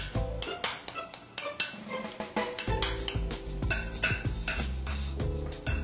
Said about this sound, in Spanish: Picamos de la siguiente manera para que quede bien, bien picadita.